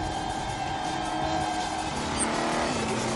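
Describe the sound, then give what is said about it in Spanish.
A car accelerating, heard as a steady, broad roar of engine and road noise at a moderate level throughout, with no other sounds standing out. “Zao cierra el maletero y James acelera.”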